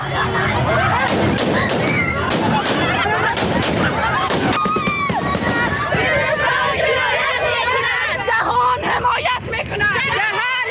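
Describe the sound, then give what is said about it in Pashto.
Gunshots fired into the air by Taliban forces breaking up a women's protest in Kabul: repeated sharp cracks, clustered mostly in the first half, over a loud, agitated crowd of voices that continues throughout. “دا په کابل کې د خزو هغه اعتراض و چې طالبانو په هوایي ډزو تیتو برک کړ.”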